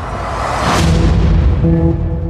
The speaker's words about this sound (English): An explosion rocks the city today.